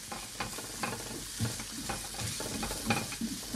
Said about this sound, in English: And for the next minute of stirring, we're just trying to take the edge off the ingredients I've just added. So we're just trying to get them to, you know, soften a little bit in the pan. We're still on like a medium high heat.